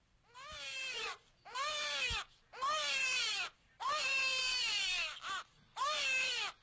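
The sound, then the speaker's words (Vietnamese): A newborn baby cries in a string of loud, shrill wailing bursts, each a strained, harmonic wail that drops in pitch, separated by brief gasping pauses. “thằng bé bắt đầu khóc lên choe choé như xé vải”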